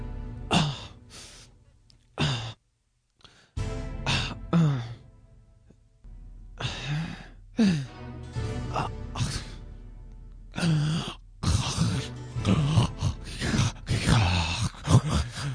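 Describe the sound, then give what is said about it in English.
A voice imitates a man breathing heavily, like a scene from a role-playing video game: several loud, breathy sighs, moans and gasps with sliding pitch, coming in bursts separated by short pauses. “it doesn't have a scene where a guy breathes all heavily like...”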